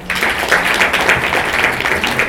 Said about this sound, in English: Another big clap.